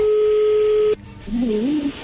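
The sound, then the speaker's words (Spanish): A telephone line plays a steady tone for about a second, then the tone cuts off abruptly, followed by a brief wavering sound as the call connects. “A ver, ya entró ahí la llamada”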